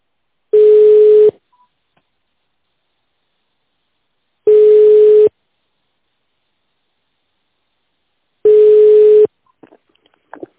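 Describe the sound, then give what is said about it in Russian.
Telephone ringback tones on a line while waiting for an operator: three steady, evenly spaced, mid-pitched beeps, each under a second long and separated by long silent gaps, with faint clicks at the end. “Нажмите 0 или оставайтесь на линии. Вам ответит оператор.”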